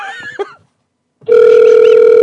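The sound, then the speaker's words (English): A telephone rings back while someone redials a caller after a dropped call: a brief burst of sound and a short silence give way to a steady, unbroken ringback tone. “Oh, I think we lost him. Let me call him again.”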